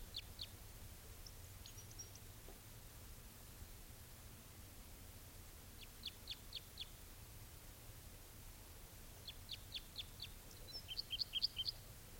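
High, thin chirping calls from a male bird perched in a dead tree. They come in a few short bursts of rapid notes over a steady background hiss, and the last burst is the busiest and strongest.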